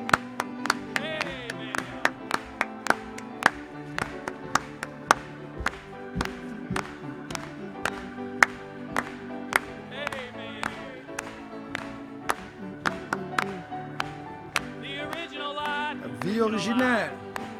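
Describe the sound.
Congregation clapping during a French-language church service: many sharp, rhythmic claps keep a steady beat under voices singing together, with the singing swelling near the end.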